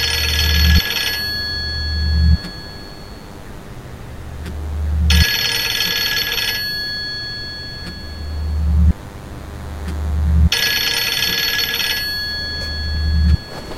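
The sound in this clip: Telephone ringing at night in three bright bursts of ringing separated by long pauses, with a low droning tone pulsing steadily underneath.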